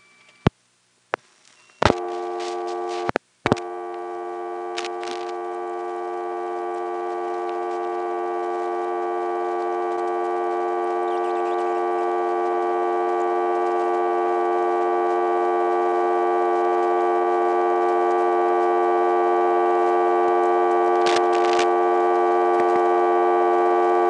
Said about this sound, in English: here's the way a reorder can come on a Stromberg XY that never happens on a regular step.